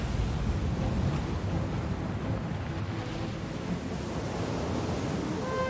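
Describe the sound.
Ocean waves make a broad, rushing wash of surf, fairly loud and steady. The sound rolls on without clear breaks across the few seconds.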